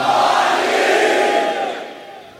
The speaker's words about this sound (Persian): هر کی باباش علیه بگه یا علی.